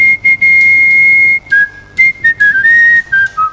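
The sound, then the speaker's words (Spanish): A man whistles tango, folk and romantic tunes: clear, high, pure melodic notes with long held tones, pitch slides and brief breaks between phrases, loud and alone with no talking. “con su silbido, interpreta tangos, música folclórica,”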